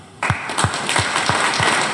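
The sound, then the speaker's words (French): A parish audience applauding mothers, the clapping starting abruptly and settling into a loud, regular rhythmic beat of claps. “Acclamez toutes les mères du monde entier, et spécialement celles qui sont là, celles de notre paroisse. Ensemble, nous allons acclamer les femmes, les garçons et les enfants.”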